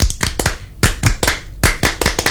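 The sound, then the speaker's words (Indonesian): Group hand clapping in a scout clap routine (tepuk pramuka), many sharp, loud claps in a quick rhythmic pattern of grouped beats and pauses. “Kayaknya kalau misalnya kita nggak tepuk pramuka kurang pas ya kita ngobrol soal pramuka soalnya. Ya. Benar. Okay, ya. Okay. Tepuk pramuka.”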